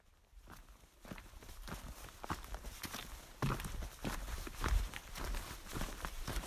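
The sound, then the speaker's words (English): Footsteps of a long-distance walker outdoors at midday, a steady rhythm of many soft footfalls at an even pace, alone with no voices. “We've certainly been walking for a while now.”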